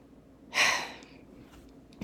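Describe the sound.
One deep breath, a loud rush of air that swells quickly and then trails off into near silence, with a soft puff of air near the end.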